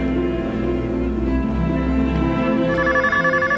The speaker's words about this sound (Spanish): No alcanzan a pasar algunos segundos y suena ahora su celular.